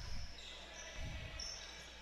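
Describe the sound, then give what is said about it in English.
A basketball is dribbled on the court during a game against Mountain Home. Two dull, low bounces sound faintly over a steady background hiss. “Dribbles to the right wing.”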